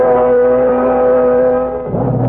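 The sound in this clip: Engine roar of a car speeding in a chase, a loud, steady droning hum with strong tonal layers. The pitch and texture shift near the end as the vehicle pushes on.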